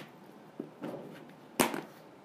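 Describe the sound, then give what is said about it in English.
A Clorox disinfecting wipe pulled from its container before cleaning an iPhone: a soft click and a brief rustle, then a sharper, louder tearing swish near the end, faint and alone. “I love Clorox disinfecting wipes. So you just open this up, you take it out,”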